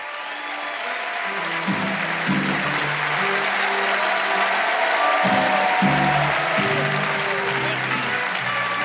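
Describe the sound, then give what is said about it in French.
Audience applause welcoming a comedian onto the stage at a comedy show in Switzerland: loud, dense, sustained clapping that holds steady for several seconds, with music playing underneath. “Préparez-vous maintenant à accueillir notre prochain artiste et faites du bruit où que vous soyez pour Alexandre Kominec.”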